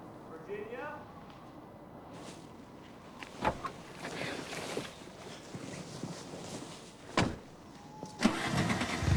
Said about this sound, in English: The young couple smile at each other and Francis drives away.